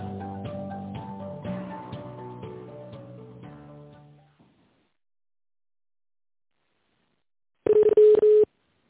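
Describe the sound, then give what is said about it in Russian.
Telephone keypad tones dialing an extension on a company phone line: a few quick, loud electronic beeps packed closely together near the end, after a fading stretch of other sound and a long silence. “Наберите внутренний номер абонента или оставайтесь на линии.”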